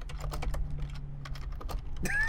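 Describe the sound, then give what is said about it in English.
Computer keyboard typing, a quick run of irregular, fairly faint keystrokes that clatter on without pause. “All right. All right. I'll type it in.”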